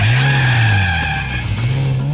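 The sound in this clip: Tires squeal in a skid while a car engine whines and shifts pitch, from a computer racing game, a continuous loud sliding screech that rises and dips over about two seconds, with no talking.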